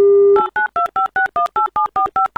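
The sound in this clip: A telephone number is dialed on a touch-tone phone: a steady dial tone cuts off, then eleven short, evenly spaced key tones beep in quick, regular succession, loud and alone.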